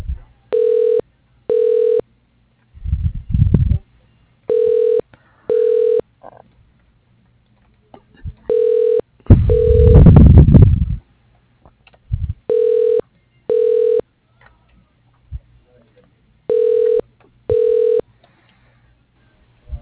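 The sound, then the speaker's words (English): Telephone line tones play during a call transfer to an operator: short beeps come in paired bursts, repeating in five double-pulse cycles. A few rough noise bursts interrupt the pattern, one louder and longer in the middle. “Again, thank you for calling Summit Design and Engineering. You are being transferred to the operator.”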